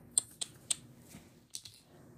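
Crisp clicks from a deck of playing cards being shuffled by hand: a few sharp, faint snaps in quick succession, then a couple of softer ones after a short pause.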